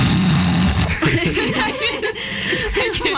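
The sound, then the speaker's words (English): A person imitates a father's loud snoring with a short, low, rasping snort, followed by chuckles and laughter. “And the thing is that my dad snores”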